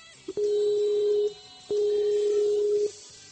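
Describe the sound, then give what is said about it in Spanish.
Telephone tones while redialing after a dropped call: a short blip, then two steady, loud, mid-pitched electronic beeps of about a second each, separated by a brief gap, with no voices. “ahora mismo hemos perdido la llamada con Félix, voy a volver a llamar.”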